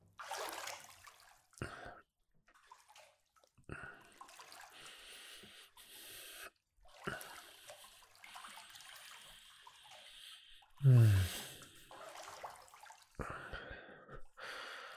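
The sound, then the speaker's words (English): Running water while someone's hair is washed comes in intermittent splashing and trickling bursts, separated by quiet gaps, with one louder gush near the end. “I'm gonna wash your hair first, so just relax.”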